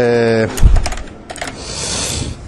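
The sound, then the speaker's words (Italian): Rapid clicking keystrokes from typing text on a computer keyboard. A brief tonal sound comes first, then a quick run of sharp taps, followed by lighter, scattered clicks. “Per inserire del testo utilizzeremo la tastiera, sempre che la tastiera sia ben collegata.”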